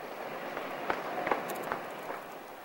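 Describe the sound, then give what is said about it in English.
Hurried footsteps climbing a staircase: a few soft, fairly evenly spaced thuds over a low, steady background hiss. “She listens attentively, then hurries back upstairs.”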